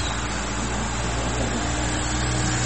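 Vehicle passing by with a loud, steady roar of engine and road noise that holds continuous from start to end.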